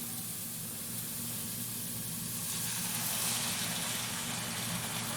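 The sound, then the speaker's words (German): A steak sizzles as it goes into a hot pan with the lid opened, a soft continuous hiss that turns brighter and fuller partway through. “Oh ja, wenn man den Deckel aufmacht, hört man schön. Hauen wir doch mal das schöne Steak rein.”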